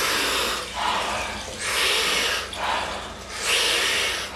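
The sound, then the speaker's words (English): Soft, breathy exhales from a rhythmic group breathing exercise: a few airy hissing pushes of breath repeat at a steady pace, each swelling and fading, with no talk. “And the exhale is a soft exhale. We do it rhythmically, we do it together, and it sounds like this.”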